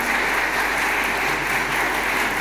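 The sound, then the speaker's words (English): Applause from a church audience welcoming a new archdeacon, a dense, even clatter of many hands clapping steadily throughout, with no talk. “Archdeacon Rhiannon and a big clap and a round of applause? Big applause.”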